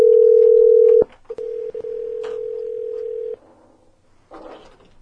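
A telephone dial tone sounds while a call is being placed. The steady, loud, unwavering tone is cut by a sharp click after about a second, then resumes for roughly two seconds before stopping, followed by faint low rustling.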